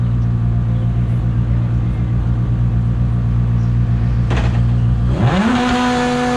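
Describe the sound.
A Lancia rally car drives a test lap on the fourth stage, its engine holding a loud, steady high drone. Near the end the engine note dips sharply and then climbs again.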